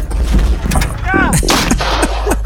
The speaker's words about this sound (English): Why all the fireworks? That was crazy, but I'll take it.